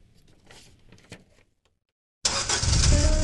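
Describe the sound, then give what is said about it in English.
An old, worn car engine bursts into life after a few faint clicks and rustles and a short silence. It then runs loud, rough and steady through the end. “When was the last time you drove that old clunker? It's full of great memories, but let's face it, it has seen better days.”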